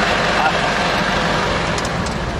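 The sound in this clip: Snowplow gritter truck driving while spreading grit from the back, heard as a steady engine and road drone with people talking over it.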